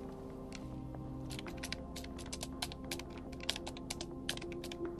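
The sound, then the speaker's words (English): Typing on a computer keyboard: many quick, irregular key clicks in steady bursts over a constant low electrical hum, with no voices. “She begins to type.”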